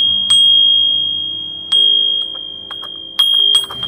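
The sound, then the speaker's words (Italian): A small bell rung by a statue that represents a distant province, sounding three clear strikes, each leaving a bright, high ringing tone that slowly decays, with a few lighter taps in between. No voices. “per magia la statua che la rappresentava faceva suonare la campanella.”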